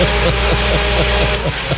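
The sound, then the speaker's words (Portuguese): Electric blender switched on and running, its motor giving a steady, loud droning hum with a regular pulsing beat throughout. “A gente vai sortear já já esse liquidificador. Deixa eu ligar ele aqui. Ah, oh, o bichão tá funcionando.”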